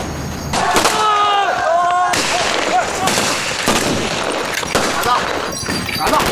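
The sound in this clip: Gunfire in a firefight: many sharp, loud shots and bursts in an irregular rhythm, with a voice briefly shouting early on.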